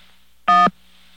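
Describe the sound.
A telephone keypad tone for the digit 1 sounds once, a steady electronic beep lasting about a quarter second over a faint line hum.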